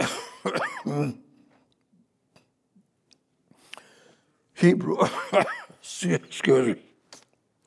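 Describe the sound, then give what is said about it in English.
Someone coughs in a few short, harsh bursts, clearing the throat. There is one cluster at the start, then a long quiet gap, then a second group of coughs. “I coughed so that I could think what to say next.”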